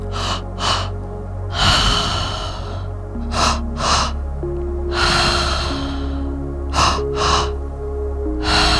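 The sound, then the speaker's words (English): Deep breathing through the mouth during a breathwork session: repeated cycles of two quick, sharp inhales followed by a longer, airy breath, over soft background music. “Open the mouth and breathe through the mouth.”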